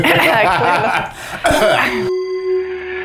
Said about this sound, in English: Clear the throat.